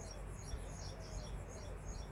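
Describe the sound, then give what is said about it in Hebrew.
Many birds chirp high in tall trees, a faint, steady tangle of overlapping tweets above a constant low background rush. “את הצלילים של העשרות ציפורים שחיות פה בעצים הגבוהים למעלה.”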